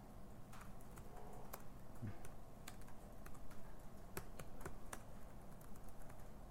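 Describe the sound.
Typing a command on a computer keyboard to create a folder in a terminal. Many quick, irregular keystrokes click steadily throughout, with no talking.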